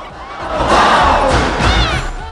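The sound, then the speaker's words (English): A crowd watching a wrestling fight roars and shouts encouragement, a loud, surging mass of voices that swells and stays high throughout. “The audience, absorbed in the fight, punch the air and encourage the wrestlers.”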